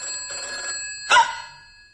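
Telephone ringing with a sustained, high-pitched electronic trill that runs through the whole clip, broken by a brief louder burst partway through.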